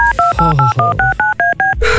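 Touch-tone keypad dialing a phone number: a quick, evenly spaced run of many clear dual-tone beeps, loud and alone, ending in a brief noisy burst.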